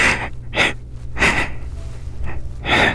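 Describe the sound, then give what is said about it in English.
Congested breathing through a clogged nose, heard as several short, raspy, wheezy breaths in an uneven rhythm, fairly loud and with no voice over them. “Breathe. I know your nose is all clogged from that.”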